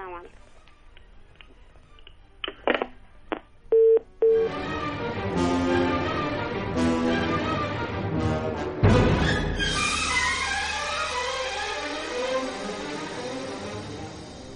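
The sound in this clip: Short electronic telephone beeps from a caller's line on a radio phone-in quiz show, a few brief tones ending in a longer steady one, after which busy music takes over.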